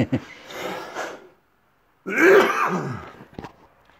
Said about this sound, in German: Jetzt kriege ich Husten.